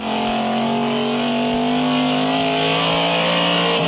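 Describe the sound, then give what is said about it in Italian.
Engine of a 1960s Alfa Romeo Duetto sports car revving, a steady, loud, buzzing drone with strong tonal harmonics that holds its pitch and edges slightly upward at the very end. “Vi ricordate il mitico duetto Alfa Romeo, simbolo delle quattro ruote degli anni 60? Quello è il dono che papà Braddock fa al rampollo, fresco di laurea, Benjamin per l'esattezza.”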